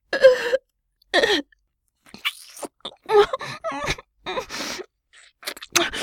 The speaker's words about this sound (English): Oh, I love gagging on you.